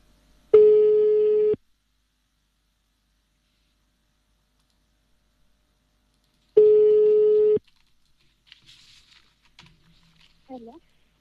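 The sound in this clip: Ringback tone of an outgoing telephone call: two steady, buzzing tones, each about one second long, separated by several seconds of silence, followed by a few faint clicks and rustles.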